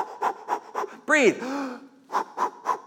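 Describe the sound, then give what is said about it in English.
A voice imitates Lamaze breathing from childbirth classes: three short, even panting breaths, then a longer voiced, sweeping sound, then three more quick pants in the same rhythm. “you go to these Lamaze breathing classes, and they're like, breathe, breathe, breathe.”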